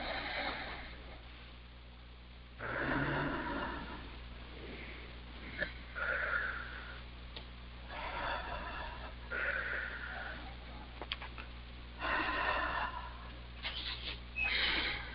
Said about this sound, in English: Three nice deep breaths.